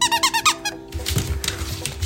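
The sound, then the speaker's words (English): A squeaky dog toy shaped like a small whiskey bottle with a liquor-style label gives a quick run of high, bright squeaks. The squeaks are followed by softer rustling and handling noise. “It's a little bottle of whiskey that squeaks.”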